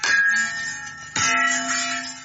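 Two ringing metallic strikes on a bell hit with a stick, a farmer's defence for scaring elephants away from crops; each clang is bright and sustained, with the second following about a second after the first.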